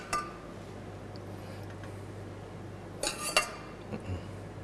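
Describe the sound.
A utensil stirs pork together with its own juices in a pot, giving a few brief metallic clinks against the pot over a faint, steady low hum.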